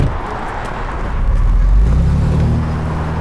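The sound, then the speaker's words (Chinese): A car pulling away with a deep engine rumble that swells to its loudest midway, then holds and eases slightly. The sound is alone, with no talk. “胡建仁开车走了，我们跟上。”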